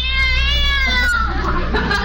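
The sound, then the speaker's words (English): A cat perched on top of a car meows while being shooed away, giving one long, loud, drawn-out whining cry that sags slightly in pitch over about two seconds. “Go on, cat. Scat.”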